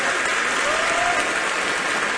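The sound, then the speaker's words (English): An audience claps for performers at a live country music show, with steady, dense applause at an even loudness from start to end. “Give them a round of applause.”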